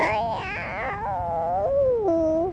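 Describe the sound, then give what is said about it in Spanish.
A human voice imitates a kitten meowing in a children's animal-sounds game: one drawn-out, wavering mew that slides downward in pitch and ends with a thin high squeak. “¿Y cómo hace el gatito?”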